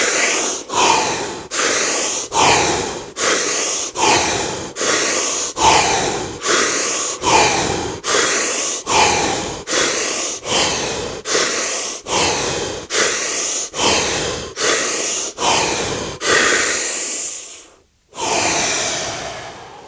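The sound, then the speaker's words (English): Deep breathing in a guided breath exercise: many forceful, evenly spaced breaths in a fast, steady rhythm, then a brief silence and one longer drawn breath. “Back to the breath.”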